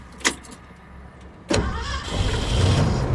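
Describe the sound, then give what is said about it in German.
A car starts up and drives off: a sharp knock, then the engine catches with a sudden onset and settles into a low, steady rumble that swells slightly louder. “Ich fahre weiter. Nach Osten, ein Stück weit weg vom See.”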